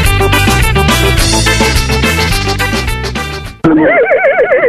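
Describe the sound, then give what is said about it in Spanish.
A horse neighs with a loud, high, wavering whinny that rises right as the music before it cuts off. “Soy un caballo, escucho Tercer Mundo.”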